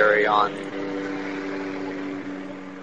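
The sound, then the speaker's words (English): A helicopter flying overhead gives a steady, low, droning engine hum with constant tonal lines that holds throughout. A brief voice sounds at the very start. “Can you hear the helicopter?”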